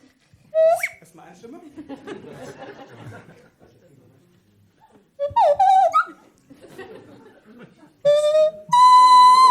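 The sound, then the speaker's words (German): Flute playing a drinking-song tune in a few separate bursts of bright, high notes, with chatter and some laughter in the gaps between phrases. “So, demnach versuche ich jetzt ein letztes Mal für dieses Jahr ein Prosit auf dieser Flöte zu spielen und ihr singt schön mit.”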